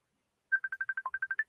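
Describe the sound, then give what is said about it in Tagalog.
A mobile phone ringtone for an incoming call: eleven quick, evenly spaced electronic beeps at a mid-high pitch, one dipping lower near the end. The beeps are fairly faint and play alone in silence. “Ay, teka, tumatawag. Sagutin ko lang, ha?”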